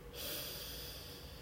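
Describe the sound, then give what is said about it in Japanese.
A slow, deep breath drawn in during a relaxation exercise, through the nose or mouth: one faint, steady, airy inhale lasting the whole moment. “では背筋伸ばして一度息を吐きましょうあ呼吸は鼻からでも口からでも両方でも OK ですではゆっくり吸います”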